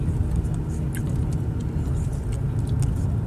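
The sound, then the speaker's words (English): Steady low rumble of a car driving to work on a two-lane road, one lane eastbound and one westbound, a continuous engine and road drone with faint light ticks above it. “I'm driving here on this road to work. It's two lanes.”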